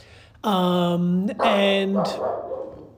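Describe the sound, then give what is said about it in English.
A dog barks: two drawn-out, tonal, howling barks, then a shorter, rougher one fading into a low background hum. The barks are loud. “Sorry about that. That's my dog.”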